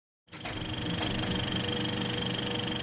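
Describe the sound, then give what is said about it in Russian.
A car engine, called for in a hurry to set off, starts abruptly and settles into a loud, steady running hum with a dense mechanical rattle that holds to the end. “«Заводи мотор! Едем, едем, живее!»”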